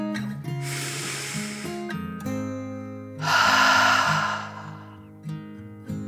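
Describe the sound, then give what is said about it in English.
Deep breath drawn in and let out again during a children's guided meditation, two long airy breaths over soft, steady background music. “Taking another deep dragon breath, in and out.”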